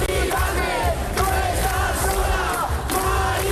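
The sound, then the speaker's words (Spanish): Crowd of protesters chanting at an overnight sit-in: many loud voices in continuous, rhythmic shouted chant phrases that repeat steadily throughout. “Este es el sonido de la protesta que durante toda la noche ha acompañado a Mari Carmen.”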